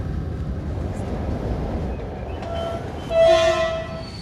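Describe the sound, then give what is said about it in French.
Train arriving at Bucharest Nord station, a low, steady rolling rumble. Near the end a short, loud horn blast with a clear sustained tone sounds. “On arrive en gare de Bucarest Nord.”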